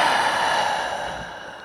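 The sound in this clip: A slow exhale after a held breath during a Taoist neigong breathing exercise, heard as a soft, steady breathy rush that gradually fades.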